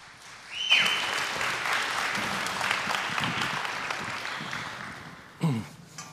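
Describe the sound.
Audience applause welcoming a guest speaker, bursting in abruptly with a sharp whistle, then settling into steady clapping that slowly fades, with a brief louder burst near the end.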